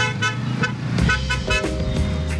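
Heavy road traffic during summit gridlock in India, with many short car horn toots sounding repeatedly over a steady low engine rumble.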